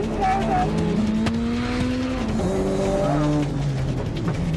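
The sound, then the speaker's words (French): Tires squeal as a car slides through controlled drifts, with the engine revving loudly and its whining tones sliding up and down continuously throughout. “Roule droit! Non, pas les dérapages contrôlés!”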